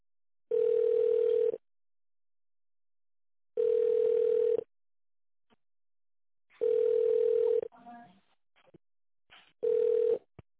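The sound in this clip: Telephone ringback tone while a call is being transferred to a contracts department: four steady, mid-pitched one-second beeps separated by silent pauses of about two seconds, with a few faint clicks and rustles between the later tones.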